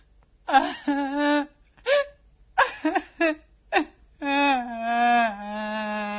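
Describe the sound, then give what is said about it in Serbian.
A woman crying in a television soap opera: a series of short, shaky whimpering sobs breaks into a long, sustained wail at the end, loud and emotional. “U jednoj poznatoj seriji jedna devojka plače zato što joj je ostavio momak.”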